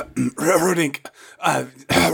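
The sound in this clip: Throat clearing from someone with something caught in the throat: a few gravelly, voiced bursts with a short rough catch in between, moderately loud, with no other sounds.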